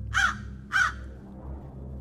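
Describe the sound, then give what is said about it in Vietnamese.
A crow caws twice at night, giving two short, harsh, nasal calls about half a second apart over a low, steady hum. “Thoáng nghe tiếng quạ kêu giữa đêm, rồi ả xòe bàn tay thon thả ra.”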